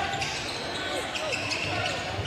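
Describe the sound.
A basketball bounce pass on the court brings a brief ball bounce amid steady, busy background noise.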